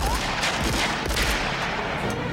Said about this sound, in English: Lying down, Carl's partner fires. John pulls his gun out. The fan spins rapidly, deflecting bullets.